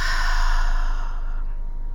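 A slow exhale through the mouth during a guided breathing exercise: a steady, breathy rush that lasts about two seconds and gradually softens, with no talk.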